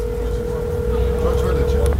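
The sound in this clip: A steady, unbroken telephone line tone while someone tries to phone Aleppo without getting through, held for about two seconds over rough background noise.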